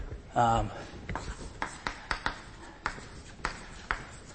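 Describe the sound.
Equations written on a board during a lecture: a brief voiced sound comes first, then a series of short scratchy strokes and taps in an irregular rhythm.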